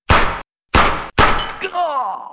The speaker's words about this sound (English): Oh, nice shot, boss. He got what was coming to him, all right. You drilled him right between the eyes.